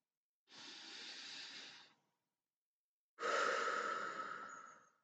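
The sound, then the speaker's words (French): A deep breath drawn in slowly and then released, two long soft airy rushes separated by a pause, the exhale louder and fading gradually, heard alone during a guided relaxation exercise. “Puis tu vas prendre trois grandes respirations. Une première.”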